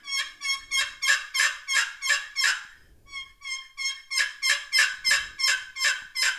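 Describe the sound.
Rhythmic turkey yelps imitated on a turkey call come in two runs of many evenly spaced, raspy notes, split by a brief pause. The notes are steady and fairly loud, with no talking over them.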